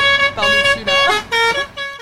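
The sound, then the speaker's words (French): Car horn honking repeatedly while driving around a roundabout: a quick series of short, bright, buzzy blasts, loud and alone. “vous me voyez en train de faire des tours autour du rond-point, là, avec ma bagnole et mon klaxon.”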